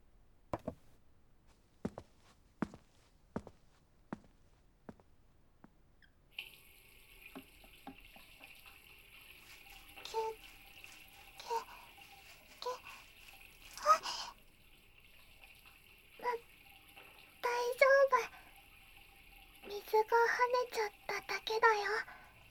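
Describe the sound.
Running tap water as a mug is washed at a sink, preceded by a few sharp, evenly spaced clicks, then a steady hiss of flowing water broken by louder splashing bursts.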